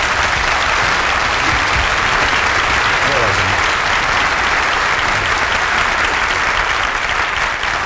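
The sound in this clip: A seminar audience applauds a speaker coming on stage, a loud, dense and continuous wash of many hands clapping from start to finish.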